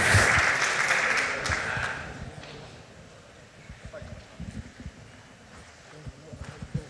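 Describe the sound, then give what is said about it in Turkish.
Audience applause bursts out loud and dense, then thins and dies away over a few seconds as voices and scattered sounds carry on beneath. “Buzdan olabildiğince kuvvetli bir alkış rica edebilir miyiz?”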